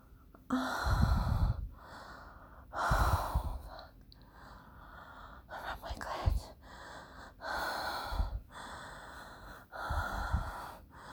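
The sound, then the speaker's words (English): Heavy human breathing: five deep, gasping breaths in a slow, regular rhythm, each separated by a quiet pause. “Rub it with the rhythm of my breath. Just hear my breath.”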